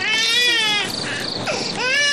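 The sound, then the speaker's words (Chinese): An infant cries in high-pitched, tonal wails: a long sustained wail breaks into shorter strained sobs, then rises into another loud wail. “不哭啊不哭不哭啊，乖乖，不哭不哭啊，乖乖。”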